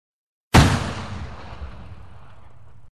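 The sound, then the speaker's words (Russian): A single loud rifle shot cracks with a sharp attack, then a booming rumble decays slowly over more than two seconds into quiet. No voices are heard. “Не было бы двух первых выстрелов, вообще все нормально было бы.”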